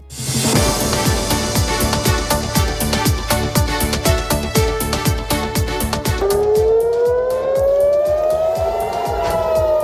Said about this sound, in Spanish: Este es el sonido de las sirenas que han sonado hace muy poco en Jerusalén y Tel Aviv.